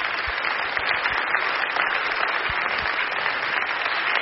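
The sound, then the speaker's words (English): A church audience applauds during a service, giving a steady, dense round of clapping that holds at an even level for the whole stretch, with a few low thumps underneath and no voices standing out. “Let's give them one more hand.”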